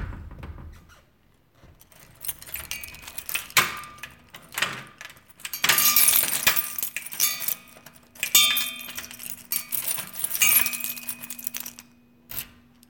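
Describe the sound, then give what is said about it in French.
Keys jangling and scraping in a door lock: many irregular metallic rattles and clicks with several louder bursts, and a steady faint squeaky tone through the middle stretch. “ses clés dans la serrure. Voici le son d'origine.”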